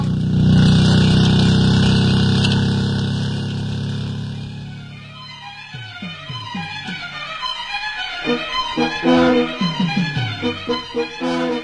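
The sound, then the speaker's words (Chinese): A car engine idles steadily and then pulls away, its loud mid-pitched hum fading as it drives off, followed by a series of irregular knocks and bumps. “坐稳了啊，哎，请让一下，我开车了。”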